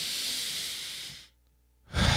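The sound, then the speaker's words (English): A deep, hissing breath is drawn in during a guided breathing exercise and lasts just over a second. A short silent pause follows, then another strong breath begins. “just sit in silence. Focus on your breath. Breathe in.”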